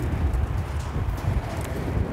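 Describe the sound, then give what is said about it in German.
Strong wind gusts during a storm buffet the microphone as a dense, low, rumbling roar. It holds fairly steady for about two seconds with slight surges. “Man spürt hier schon, wenn der Wind so da reinfährt, was da für ein Druck dahinter ist.”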